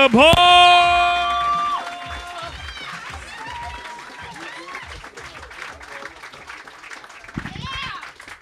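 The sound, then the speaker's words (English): A comedy-show audience applauds and cheers as a comedian is introduced. The clapping is loudest at the start and then settles into steady applause while a voice shouts over the crowd. “Clap it up for Greer Barnes.”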